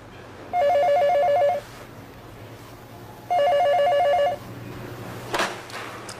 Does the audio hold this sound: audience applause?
no